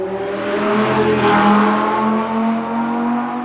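A motorbike used for city riding in London pulls onto a driveway, its engine giving a loud, steady tonal drone that shifts slightly in pitch as it rolls along, with no voices.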